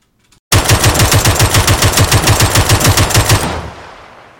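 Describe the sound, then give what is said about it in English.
Rapid gunfire from an MK-47 rifle on single tap in a video game: twenty sharp, evenly spaced shots in a fast steady rhythm, loud and alone, followed by a short fading tail. “In the first recording you will hear the MK-47 on single tap.”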